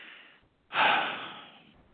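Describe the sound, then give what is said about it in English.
A sharp, audible intake of breath taken in the middle of a spoken sentence, a single loud, hissy inhale that tails off gradually after a soft breathy lead-in. “I had to breathe on that word”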